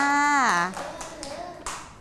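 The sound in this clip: A few scattered hand claps follow a short spoken phrase, applauding a young child's butterfly drawing that has added eyes and antennae. The claps are light and irregular and fade quickly.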